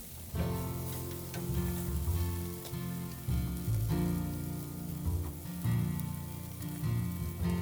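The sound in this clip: Food sizzles on a heating barbecue grill: a loud, dense, continuous crackling hiss with a low rumble underneath that swells and dips slightly throughout, with no voices.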